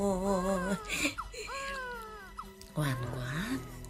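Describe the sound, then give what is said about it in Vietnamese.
An infant crying in three wailing bursts, harmonic and plaintive with sliding, wavering pitch; a strong opening cry, a softer drawn-out middle whimper and a final rising wail. “Ngoan quá, nín khóc rồi này.”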